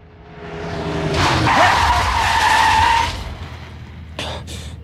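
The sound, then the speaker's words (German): A car races up from behind on a quiet street, its engine swelling before the tires break into a loud, sustained screech of about two seconds, followed after a pause by two short, sharp squeals. “Wenn abends in einer schönen, stillen Straße plötzlich so ein Auto von hinten auf einen zurast, ne?”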